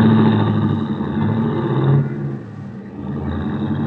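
A taxi cab's engine revs as it drives off from a cab stand in front of an office, a steady, loud motor drone that dips briefly partway through and then builds again.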